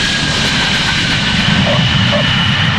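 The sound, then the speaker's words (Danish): Airplane engine drone during a landing approach to Copenhagen, a loud, steady roar with a thin high whine on top, continuous and unchanging throughout. “få minutter lander vi i København. Vi anmoder passagererne om at spænde sikkerhedsselerne og slukke cigaretterne.”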